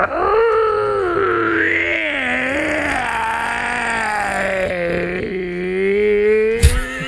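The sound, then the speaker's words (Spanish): A person imitates a hoarse wolf howl: a long, rough, moaning voiced tone that rises, then slowly sinks and wavers, sustained for several seconds. “Hacía un aullido como si fuera un lobo. ¿Cómo? Pero un lobo ronco, así como con problemas en la garganta.”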